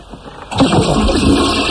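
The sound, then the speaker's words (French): A toilet flushing: a sudden burst of broad, rushing water noise starts abruptly partway in and keeps going steadily and loudly to the end. “Enfin, je tire la chasse”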